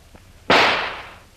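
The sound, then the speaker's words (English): A single loud gunshot is fired at the lock of an old metal door: one sharp, explosive crack followed by a bright, decaying noisy tail lasting most of a second. “I'm going to try and shoot the lock off the door. Get back now. The bullet may bounce off the metal.”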